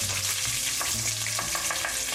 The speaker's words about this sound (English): so as you can hear, the tomato paste is cooking and caramelizing.